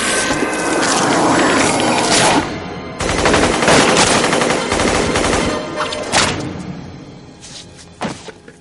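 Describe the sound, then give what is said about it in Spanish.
Gunfire on a rooftop in the 1999 film The Matrix as an agent steps off a helicopter: loud bursts of rapid automatic fire, a brief pause, then more heavy shooting and a few sharp separate shots toward the end. “El agente baja del helicóptero. Neo le dispara.”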